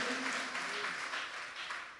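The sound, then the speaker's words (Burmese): Congregation clapping hands in praise during a church service: a faint, steady patter of many hands for about two seconds, easing off slightly at the end. “လက်ခုပ်တီးလက်ပြားကိုချီးမွမ်းကြရအောင်ဟာလေလုယာဟာလေလုယာ”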